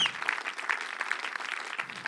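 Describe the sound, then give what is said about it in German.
A church audience claps hands together in a steady, dense patter of many overlapping claps, fairly soft and even with no pauses. “If we have to do it, let's do it well, okay? Hey. Let's clap for Jesus.”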